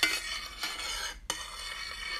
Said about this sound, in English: And then, 2 teaspoons of agave nectar. And then we stir it.